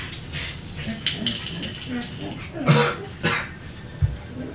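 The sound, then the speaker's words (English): Coughing and throat clearing from one person, a few short, rough bursts separated by brief pauses over a quiet background. “Sorry, something in my throat.”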